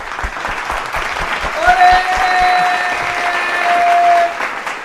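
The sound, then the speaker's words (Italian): Studio audience applause greeting two guests, loud and continuous, with rhythmic low thumps through the first half and a few whistle-like tones riding above the clapping. “Un applauso, un applauso.”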